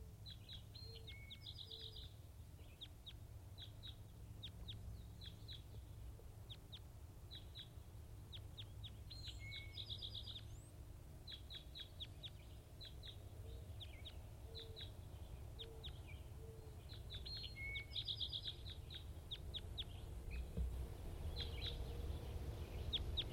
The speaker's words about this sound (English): Recording wild birds.